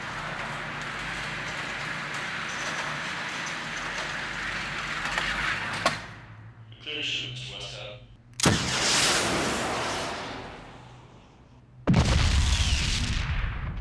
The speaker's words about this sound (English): Why don't you put up another target, Frank? I've got some time to kill today. Sure thing. Do you need another clip? Nah. I'll switch to the Salamander. The Salamander 650. Now that's a decent gun.